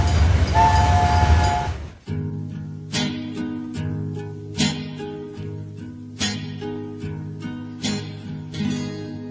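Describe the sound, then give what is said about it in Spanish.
A train pulls into a station with a loud rushing roar that ends abruptly. Rhythmic clattering follows, with regular sharp clacks over a steady low hum. “nuestro tren está muy cerca de la estación”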